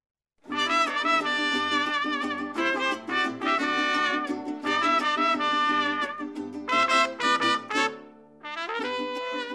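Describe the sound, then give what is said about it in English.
Mariachi music played by a high school student group in West Phoenix: a loud, continuous ensemble with bright sustained melodic lines over a steady low accompaniment, pausing briefly near the end before resuming. “That's the sound of Mariachi Las Panteras de Oro, a student performing group at Maryvale High School in West Phoenix.”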